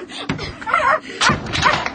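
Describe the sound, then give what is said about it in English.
A dog barks and yips in a few short, sharp bursts while playing fetch with a ball thrown against a house, the calls spaced irregularly over a low background. “I'll throw the ball against the house, and you catch it. That's it, Toto. Now bring it back here. There's a good dog.”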